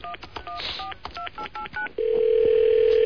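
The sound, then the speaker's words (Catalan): Telephone keypad tones on a live call: a rapid series of short beeps at varying pitches, followed by a loud, steady continuous tone as the line connects. “Marquem, sisplau. Estem trucant en directe a Embutidos Marilyn”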